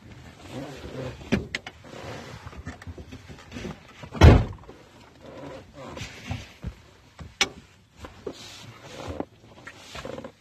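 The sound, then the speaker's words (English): Clunks and rattles come from a pickup truck window that keeps popping out as it is worked back into place. One heavy thump stands out midway, and people talk throughout. “I gotta fix my freaking window real quick.”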